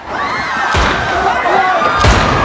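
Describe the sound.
A pistol fires in a courtroom, two loud, sharp bangs about a second apart over a continuous noisy background.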